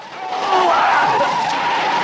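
A bus skids during a driving test, giving a sustained tyre squeal of about two seconds that swells over the first half-second and then holds steady and loud.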